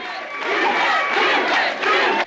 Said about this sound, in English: The mill managers, with the security men, file out through the jeering crowd. The photographers follow them, the crowd punching the air, waving their placards.